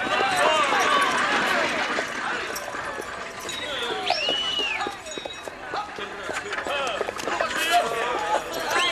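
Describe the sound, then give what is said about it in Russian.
Hooves of two chestnut horses clop rapidly as they pull a covered wagon, a kibitka, away, while people talk over the steady hoofbeats. “Саша запрыгивает в свою кибитку, запряженную двумя рыжими лошадьми, и также уезжает.”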